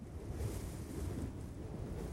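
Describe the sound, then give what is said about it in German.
Wind blowing across the Kansas prairie, a steady, even low rushing roar that neither builds nor fades, with no voices or other sounds. “Wind, a constant on the Kansas prairies.”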